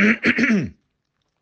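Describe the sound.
Someone clears their throat with a few quick, harsh rasping bursts that last under a second, followed by silence and a faint click at the end.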